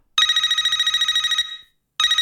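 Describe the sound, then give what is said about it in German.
A telephone ringing forms the intro of a dance track from the 1990s or early 2000s: a rapid electronic trill lasts over a second and stops, then a second ring starts just before the end. “Und der hat so ein Telefonsequenz-Intro.”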